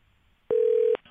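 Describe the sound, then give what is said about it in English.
A single steady telephone tone sounds as a call is placed to a newspaper's news desk, holding one clear mid pitch for about half a second, with faint hiss before and after. “Well, let's get him on the phone again. Let's try again.”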